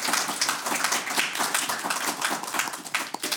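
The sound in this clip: Studio audience applause for the contestants on a team quiz show, a dense, even patter of many hands clapping at a steady loudness throughout.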